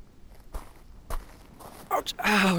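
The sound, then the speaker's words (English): Barefoot footsteps on small stones: a few separate gritty crunching steps spaced irregularly, followed at the end by a voice. “How can you walk on these small stones without pain?”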